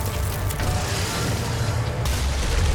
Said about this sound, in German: Aha, ich hab mich selbst in die Luft gesprengt.